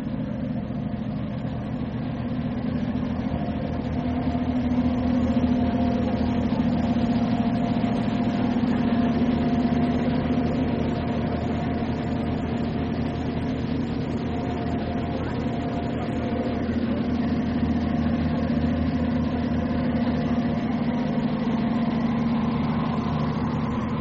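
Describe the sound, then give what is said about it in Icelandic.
Engine noise deep in the bottom of a ferry, where the engine is loudest: a steady, low rumbling drone with an unchanging hum that holds at an even level throughout. “Á þessum stað í botnum verður hávaðinn í vélinni það mestur. Hlustum á vélina.”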